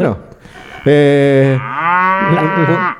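A Galician cow gives one long, loud, harmonic moo that holds for about two seconds, with its pitch shifting partway through.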